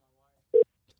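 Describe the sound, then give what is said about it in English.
A single short electronic beep sounds as a telephone number is being dialed. The tone is faint and brief, with near silence around it. “You dialing? Oh, we're dialing. We're dialing.”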